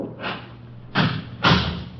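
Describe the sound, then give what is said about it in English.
A door is being closed, heard as a few dull, hollow thumps spaced unevenly apart, each with a short rough burst of noise. “Close the door there.”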